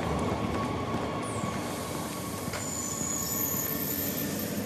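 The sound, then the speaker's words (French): A train pulls in at a station platform with a constant heavy rumble of wheels on rails, high thin metallic wheel squeals rising above it now and then, and no voices. “Il ne faut qu'une trentaine de minutes à mon train pour parcourir le trajet entre Belfort et le cœur de la joie”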